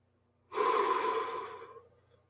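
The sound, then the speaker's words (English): A single long, deep breath drawn during a slow underwater-style breathing exercise: a steady airy rush that starts abruptly, holds for over a second, then gradually fades out, alone with no talk. “10 deep underwater breaths. 8 in, 4 out.”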